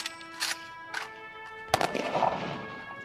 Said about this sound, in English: All right, following that 21 gun salute, we say goodbye to these three individuals.